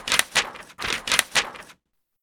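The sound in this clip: A paper ballot being folded, heard as several sharp, crisp crackling creases in two quick clusters, fairly loud, followed by silence.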